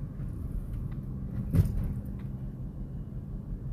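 Low, steady road and engine rumble from inside a moving car, quiet throughout, with one brief thump near the middle.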